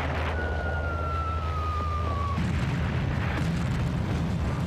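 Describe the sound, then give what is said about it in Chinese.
Bombs dropped by a formation of 27 bombers from 5,500 m over a hilltop villa in Chongqing: a thin whistle glides slowly downward in pitch over a dense, steady roar, then gives way to heavier, continuous rumbling blast noise. “远藤估计蒋介石正在山庄，便从5500米的高空投弹。”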